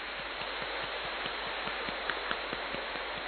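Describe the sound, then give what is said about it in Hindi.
Heavy rain pounds a tin shed roof: a dense, steady hiss runs throughout with evenly spaced, soft metallic taps at a quick regular beat, alone with no voices. “तीन shade पे बारिश पड़ रही है, ठंडक आ रही है।”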